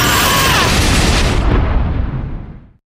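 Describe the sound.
A loud, roaring explosion sound effect for fire and lightning attack spells in a fantasy adventure, a dense sustained blast of rumble and crackle that holds steady, then thins and cuts off abruptly.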